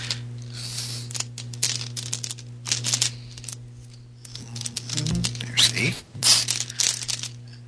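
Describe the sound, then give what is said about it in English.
Dice rattling and clicking as a hand rummages through a bag full of them during a tabletop role-playing game: irregular bursts of small, hard clacks over a steady low hum. “So many dice in this bag, it's hard to pick out the eights.”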